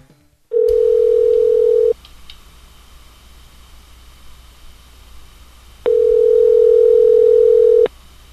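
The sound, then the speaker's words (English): Telephone dial tone after a call got disconnected: a loud, steady single-pitch tone sounds in two long bursts, with a few seconds of low hiss between them. “Hi, I think we got disconnected. Yes, my phone messes up when I move around.”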